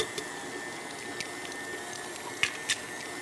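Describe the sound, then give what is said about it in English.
An electric mixer runs on low, creaming butter with sugars, giving a steady, fairly quiet whirring hum with a thin high whine and a few small clicks near the end. “cream the butter with the sugars, and then I'll turn the mixer on low and crack in 2 of eggs.”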